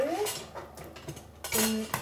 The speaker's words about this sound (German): Ich fette jetzt die Form ein. Achtung. Fette mal. Dafür nehme ich hier so einen Silikonpinsel.